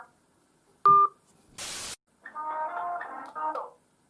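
Telephone dialing tones as a phone call is placed: a short electronic beep, a burst of hissing static, then a longer run of overlapping warbling tones.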